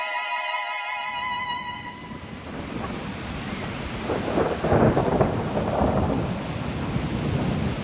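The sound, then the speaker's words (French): Torrential midday rain in London with thunder, a dense hissing downpour joined by deep rolling thunder that swells in the second half, after a sustained musical tone fades out at the start. “En milieu de journée, une pluie torrentielle s'abat sur la ville.”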